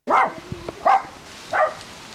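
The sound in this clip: Three sharp, high barks from a miniature pinscher giving a welcome at a summer house. The barks are evenly spaced, loud and separated by short quiet gaps.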